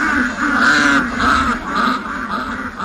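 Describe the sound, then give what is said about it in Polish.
Ducks quack, drawn in by someone calling them with a repeated 'taś taś' call. Many loud, nasal quacks follow one another in an uneven rhythm, overlapping into a continuous chorus. “Przebóg, ten idiota zwabił kaczki z całej okolicy.”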